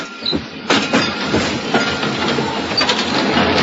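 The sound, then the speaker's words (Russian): An old dacha-line rail carriage pulls in with a steady rumble and rattling clatter, marked by repeated heavy knocks of wheels and metal over a constant loud noise floor. “Подъехал дряхлый вагончик дачной линии.”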